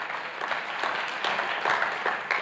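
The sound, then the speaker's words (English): Congregation clapping during a church sermon: a fairly loud, sustained patter of many hands, with a few sharper claps rising now and then. “Come on, give Jesus a clap.”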